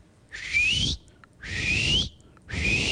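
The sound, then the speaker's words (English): Dolphin signature whistle, repeated three times as bright upward-sweeping tones, each lasting over half a second with short quiet gaps between, the last one cut off at the end. “that's what Rosalie's signature whistle sounded like”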